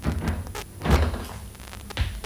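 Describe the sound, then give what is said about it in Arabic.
Knocking on a door comes as a few dull, muffled thuds at uneven intervals, faint against a noisy background. “هناك من يطرق الباب.”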